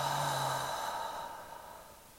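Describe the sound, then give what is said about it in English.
A deep breath during a guided breathing exercise, in through the nose and out through the mouth: a single soft, airy exhale that fades gradually and is heard alone. “taking a deep breath in through the nose and out through the mouth.”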